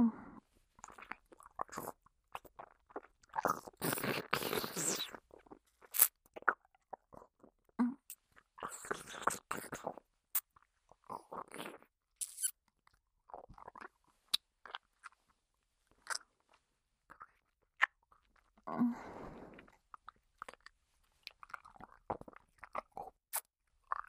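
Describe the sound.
Close-up chewing and biting beside the ear on a sticky food: many irregular wet, crunchy bursts, some loud and dense, separated by quiet gaps, with no talking.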